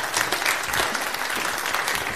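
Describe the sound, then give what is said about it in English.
Applause fills a church sanctuary, many hands clapping in a dense, steady wash that holds at an even, fairly loud level throughout, with no voices rising above it. “Can we give a hand clap to the people who put all that stuff together?”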